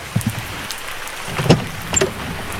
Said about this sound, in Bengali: বৃষ্টি মাথায় করেই গাড়ি থেকে নামলো রাহুল।